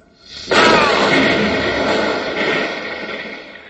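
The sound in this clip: Explosion of anti-tank atomic weapons blowing up tanks, a science-fiction radio drama effect: a sudden loud roar bursts in after a short quiet lead-in and rumbles on steadily for about three seconds.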